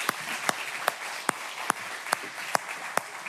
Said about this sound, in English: Would you guys give it up for Lisa Bryant as she comes? Just welcome her.